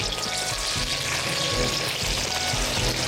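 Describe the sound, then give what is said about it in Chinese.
Ginger slices sizzle in hot oil alongside browned, tightened meat in a pan, giving a loud, dense, unbroken crackle and hiss throughout, with no voices. “煸的这样的就这个肉很紧缩了，然后成金黄色的，下两个这个姜片让它爆香。”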